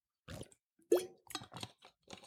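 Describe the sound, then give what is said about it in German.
Someone takes a sip of a drink, giving a few soft, wet gulping and swallowing noises in quick irregular succession, faint and alone without talking. “ich muss mal einen Schluck trinken hier mit euch und dann geht das weiter.”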